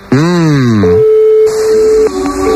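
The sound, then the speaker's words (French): A steady mid-pitched telephone ringing tone of a little over a second plays while a call is placed, after a voice at the start, with more talking over its tail. “On appelle Peggy, voilà.”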